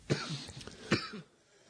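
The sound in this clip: Two coughs come from a person about to take a hit of weed. A sharp first burst is followed by a second about a second later, both fairly faint and dry, with no talk over them.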